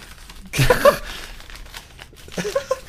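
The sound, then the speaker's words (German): Gift wrapping paper being torn open: two short bursts of crinkling, tearing paper, the first stronger, the second fainter, separated by quiet rustling. “Aber schönes Geschenkpapier. Mach doch mal auf, mein Lieber”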